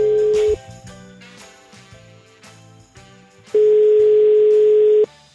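A telephone tone sounds as a random number is dialled to a call center: one long, steady beep at the start and a second one later, with softer tonal sounds in between.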